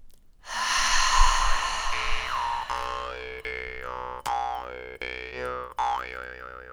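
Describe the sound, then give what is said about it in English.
A deep breath, airy and drawn out for about two seconds, is followed by music with twangy tones that bend in pitch and repeat several times. “Let's take a moment for one deep breath and then enjoy the conversation.”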